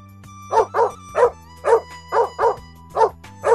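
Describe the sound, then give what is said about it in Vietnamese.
A dog barks by the roadside, eight sharp, loud barks, mostly in loose pairs with short pauses, over a low steady hum. “hắn đột nhiên nghe thấy tiếng chó sủa từ một bên đường”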